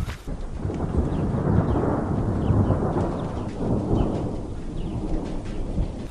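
Deep thunder rumbles continuously over a steady hiss of falling rain as a thunderstorm approaches, with no voices.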